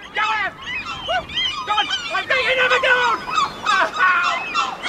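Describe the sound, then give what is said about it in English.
Hungry seagull squawking at a man guarding his bag of chips: many harsh, overlapping cries and yelps come in quick succession, fairly loud throughout. “here's the sound of a man defending his bag of chips from a hungry seagull.”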